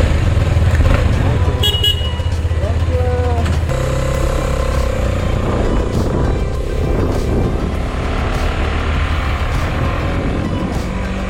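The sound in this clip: A KTM 250 motorcycle rides through traffic in Borneo with no saddlebags, on the way back from the dealership. A steady, loud engine drone and road noise run throughout, with a few brief horn toots near the start.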